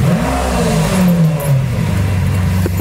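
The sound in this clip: A car accelerates as it is driven off, its engine revving with a loud, rough drone whose pitch slides lower as it pulls away.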